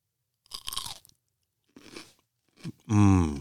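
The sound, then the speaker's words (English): Crunchy snack chips are bitten and chewed close to the microphone in a few separate crisp crunching bursts, followed by a brief voiced sound. “He's going to eat it on air and then I will take my turn eating it on air. Make it as audible as you possibly can. I'm going to open the bag.”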